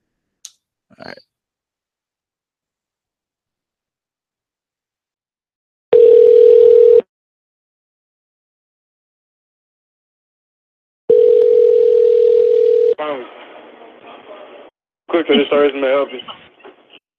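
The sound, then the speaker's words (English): Steady, loud dial tone from a telephone taken off the hook, heard in two separate sustained stretches with silence between, followed by brief garbled voice-like sounds. “I shut the phone off the hook.”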